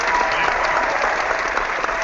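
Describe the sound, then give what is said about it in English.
A round of applause from an audience: dense, even clapping that holds steady for a couple of seconds on its own. “Let's get a round of applause from everybody.”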